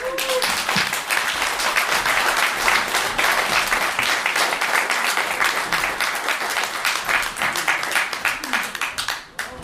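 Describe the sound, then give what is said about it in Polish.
Audience applause at a live show: dense, loud, steady clapping holds for several seconds, then thins and tapers off near the end. “więc można zasłużone oklaski już teraz”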